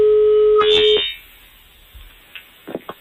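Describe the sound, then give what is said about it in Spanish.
A steady telephone line tone sounds on a call placed from a radio studio, holding for about a second before cutting off abruptly, followed by near quiet with a few faint clicks. “Ahora suena, ya funciona. Ya estamos ahí, Kiko. Suerte. Ahí está el tono.”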